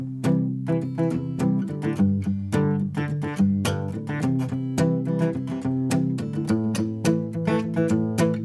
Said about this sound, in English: using palm muting, where you take the meaty part of your picking hand and subtly mute the strings. It allows the strings to still speak, but gives them a completely different texture.